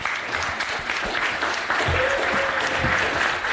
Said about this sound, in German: Applaus.